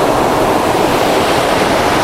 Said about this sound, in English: I can't really get close enough to do this waterfall justice, but I can get a lot of this foreground stuff in, which is really good.